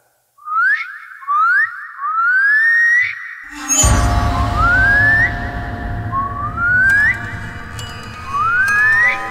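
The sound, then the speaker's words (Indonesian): Whistling in a mystery drama scene, heard by someone lying in bed: a series of upward-sliding whistled notes repeats steadily. A loud low rumbling noise joins midway and continues under the later whistles. “ku dengar suara siulan itu semakin dekat”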